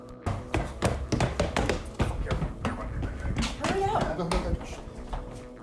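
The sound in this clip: Running footsteps pound up stairs and along a hallway in a bed and breakfast, a rapid stream of many thumps and taps with vocal sounds mixed in throughout.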